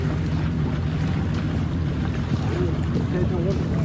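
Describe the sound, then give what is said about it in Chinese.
A motorboat engine drones on the water during a nighttime search-and-rescue along a coastline. A constant low rumble mixes with wind noise, and faint voices rise briefly toward the end. “消防舟艇向纵深方向挺进，摩托艇则横向扫描搜索。”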